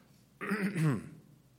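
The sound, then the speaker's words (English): A person gives one deliberate throat clearing, a short voiced rasp lasting about half a second that drops slightly in pitch, alone in an otherwise quiet pause. “He just kind of clears his throat.”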